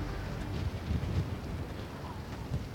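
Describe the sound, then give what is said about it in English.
Strong, cold wind blusters at high altitude near a volcanic crater, at the start of a trail. It makes a steady, fairly faint low rumble with soft buffeting gusts. “There's no air, but the wind's so strong. And it's pretty cold.”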